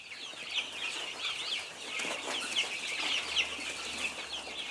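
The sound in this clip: Chickens and chicks cluck and peep while being fed scattered feed and shell limestone. Many faint, high, overlapping chirps and soft clucks run continuously, and one sharp click comes near the end.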